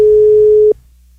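Telephone ringing tone while placing a call: a loud, steady electronic tone holds one pitch for under a second and then cuts off abruptly, leaving only a faint low hum.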